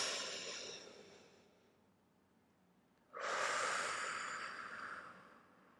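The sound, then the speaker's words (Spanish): Deep breathing during a guided relaxation pause, ending in an exhaled breath: two long, soft, airy breaths separated by a quiet gap, the second starting abruptly and sounding louder and fuller than the first. “Quiero que te des una pausa de dos minutitos y vamos a respirar profundo. Vas a exhalar otra vez.”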